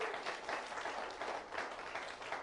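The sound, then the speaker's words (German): An audience claps, a faint but steady patter of many hands that keeps an even pace from start to finish. “Du darfst trotzdem mal klatschen für den Spirit.”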